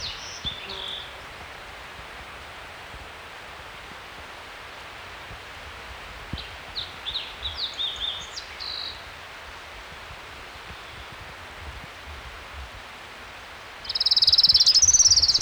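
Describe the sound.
Orange-crowned warbler song along a mountain creek at 6,300 feet: faint high chips partway through, then a louder burst of thin, high trilling at the end over steady background hiss.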